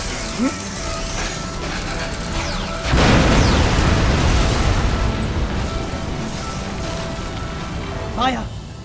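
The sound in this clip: Grenades explode behind a front line in a battle against mechanical predators. A sudden loud blast hits about a third of the way in and rumbles on, over steady mechanical whirring and clicking, with chirping tones near the end.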